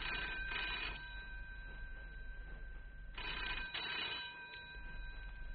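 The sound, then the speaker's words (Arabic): Telephone ringing in a button factory: two double-ring bursts of a bright, buzzing bell, separated by a pause of about two seconds, faint and with no talk. “تعال انت رد على التليفون”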